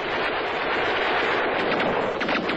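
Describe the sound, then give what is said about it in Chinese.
Gunfire in a battle: a dense, continuous crackling roar of shots with no clear gaps between them, loud and steady throughout, with no voices. “小刘正向敌人射击，看到齐德贵害怕得要命，躲在工事里瞎放枪。”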